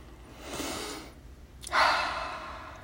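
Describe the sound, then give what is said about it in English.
A deep breath: a long, airy inhale, then a stronger, louder exhale that fades out, with no voice. “Let's take a collective deep cleansing breath right here because that was a lot.”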